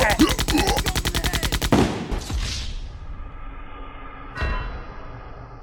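Rapid automatic gunfire aimed at a flying thing: a dense, fast stream of shots, then a heavy blast that rings out and fades, and later one more sharp report.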